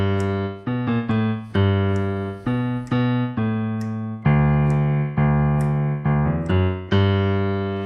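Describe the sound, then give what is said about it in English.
A piano bass line in a one-handed, rolling style plays alone as a steady, rhythmic run of many low, sustained notes with crisp attacks and even loudness. “So you have a bass line, which sounds like this.”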